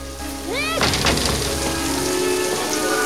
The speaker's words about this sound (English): Now he runs through the pouring rain